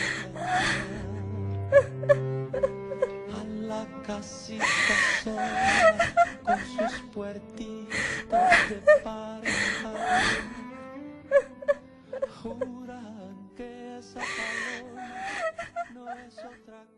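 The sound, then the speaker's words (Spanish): A woman cries and wails in grief after a fatal accident, with long wavering moans broken by sharp gasping sobs. The outbursts rise and fall in uneven, fairly loud waves across the whole stretch. “La pobre no para de llorar.”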